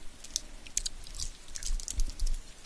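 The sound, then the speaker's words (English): Chewing on chewy candies: many faint, moist clicks and soft squishes in an uneven rhythm over a low background hum. “wanted to hear me chew on some candies”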